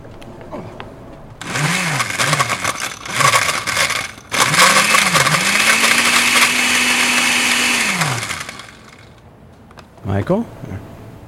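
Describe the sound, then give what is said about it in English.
An electric blender whirs as it blends a drink. Two short motor bursts swoop in pitch as they spin up. A long steady run follows, then a brief final pulse. “All right, let's go blend. Let's go blend. I'll do the blending. Should I do the blend?”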